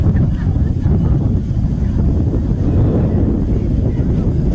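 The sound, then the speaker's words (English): Wind swirling outdoors at a football game buffets the microphone, making a steady, loud, low rumble that continues without a break. “And that wind really starting to swirl out here now.”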